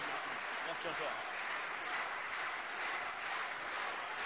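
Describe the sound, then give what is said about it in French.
Audience applause for guests being honoured at a gathering: a steady, dense hiss of many hands clapping, faint and even in level throughout, with no distinct voices rising above it. “Christiane Adot que je vous demande d'applaudir”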